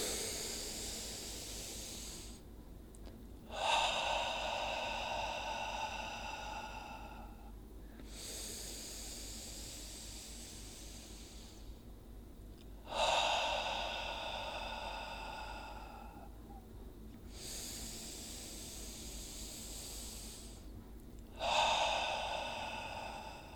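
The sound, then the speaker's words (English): Three slow, deep breaths are drawn in through the nose, each long airy inhale alternating with a soft exhale. The breathing is quiet and unhurried, alone with no talk. “Three breaths, in through the nose,”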